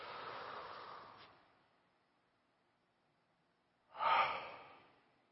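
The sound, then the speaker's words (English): Deep breaths drawn by people, heard as two breathy rushes of air: a long one at the start, then silence, then a second shorter, louder breath near the end. “Take a big, deep breath.”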